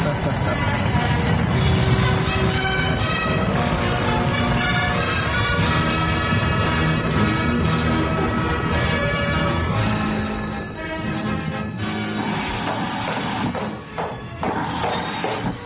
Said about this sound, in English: Liftoff. All systems go. Oh, man, I just love a good rocket ride.